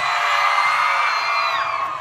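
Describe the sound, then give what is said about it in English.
Audience whooping and screaming fills the whole clip as one loud, sustained wall of high-pitched crowd cheering. It holds steady throughout with no break. “Okay, I'm gonna forward that scream to her people.”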